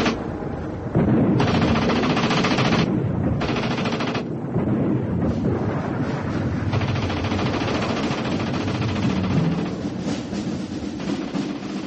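Machine-gun fire aimed at a tank's treads: long, dense, loud bursts of rapid shots over a steady heavy rumble, with brief gaps between bursts and no talking.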